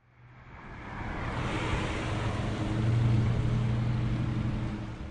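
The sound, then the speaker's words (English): Steady traffic of many vehicles crossing a bridge on the outskirts of Whangarei, a continuous broad rumble with a low engine hum that swells slightly midway and holds without pauses. “Thousands of vehicles drive over a bridge on the outskirts of Whangarei every day”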